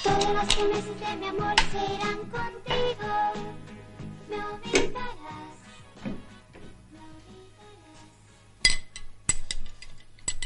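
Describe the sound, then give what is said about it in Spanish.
A spoon and a small metal tin clink against a glass of milk in a kitchen: many light, bright clinks clustered through the first half, then a few sharp louder taps near the end. “En la cocina, Ana echa una cucharada de la cajita metálica en un vaso de leche. Cierra la caja y la esconde bajo la hornilla.”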